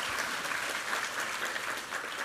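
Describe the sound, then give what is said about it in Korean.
An audience at a Korean Sunday morning worship service applauds in thanks and glory to God, with even, dense clapping that continues steadily from start to finish. “우리 하나님께 감사와 영광의 박수 올려드리겠습니다.”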